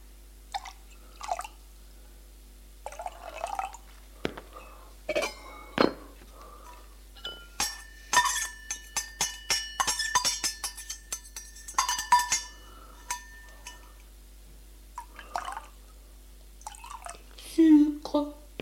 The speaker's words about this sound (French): Et elle commence à servir le chocolat fumant, bouillant.